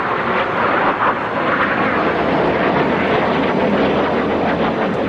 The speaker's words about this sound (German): Von den Putschisten kontrollierte F-16 Kampfjets begannen in niedriger Höhe über Ankara zu fliegen, um die Bevölkerung einzuschüchtern.